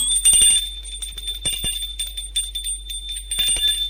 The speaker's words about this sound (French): il sonne à l'hôtel des Dédampierre